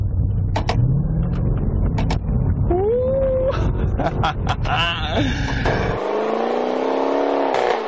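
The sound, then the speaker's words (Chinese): Car engine revving as the driver downshifts with the long, large paddle shifters, building to a loud, steady roar near the end, with higher whining tones rising and falling before it. “但是这部车它的换挡拨片，你看这么长这么大，而且真的去操作它的时候。你降档，”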